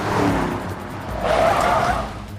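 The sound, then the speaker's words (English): A car speeds past with a loud, continuous rush of engine and tyre noise that swells to a peak midway, then eases off. “Anne's car speeds past Jenny.”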